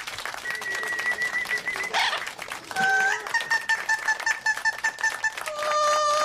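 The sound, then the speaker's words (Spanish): A female parrot sings opera-style on her own, holding long, clear, steady tones in a few sustained phrases with short breaks between notes, bright and fairly loud throughout. “Con ustedes, la Lora que canta ópera.”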